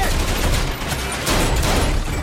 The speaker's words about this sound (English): He picks up a machine gun and sprays bullets.